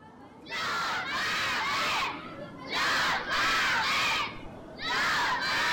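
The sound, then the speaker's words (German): A school class of children shouting loudly together in three sustained bursts of high-pitched group yelling, with short breaks between them. “Heute fährt die Klasse 3a auf Klassenfahrt zur Burg Borkenstein. Während die Klasse laut ruft”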